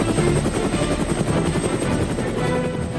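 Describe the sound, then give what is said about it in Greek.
A GAP 4 helicopter flies with a steady, loud rotor thrum throughout, a dense low chopping of blades over a broad engine roar. The level stays constant with no voices. “Ελικόπτερα GAP 4, γιατί η ιστορία έχει ήχο.”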